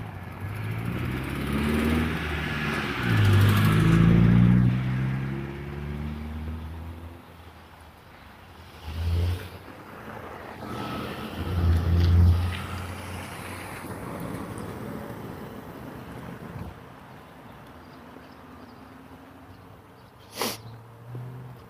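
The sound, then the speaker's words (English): A school bus and a car passing a busy street corner in the morning: a heavy, low engine rumble swells loudly and fades, with further quieter vehicle swells afterward. “Busy corner. Busiest corner in town. Not really, but in comparison, it's the busiest corner I go past every morning. This morning I had a school bus and a car.”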